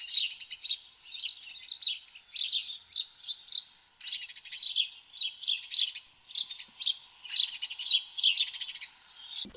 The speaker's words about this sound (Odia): ଶୀତଦିନେ ଗାଁକୁ ଅନେକ ଜାଗାରୁ ବିଭିନ୍ନ ପ୍ରକାର ଚଢ଼େଇ ଆସୁଥିଲେ।